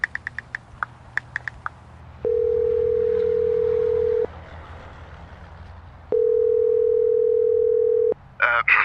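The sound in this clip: Ringback tone on an outgoing telephone call: short dialing beeps, then two long, steady mid-pitched tones of about two seconds each with a pause between, and a voice starts right at the end.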